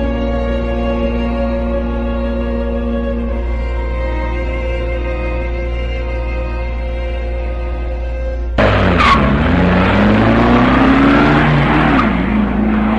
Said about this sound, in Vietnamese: Mắt không rời chiếc xe cho tới khi nó khuất hẳn sau chỗ ngoặt.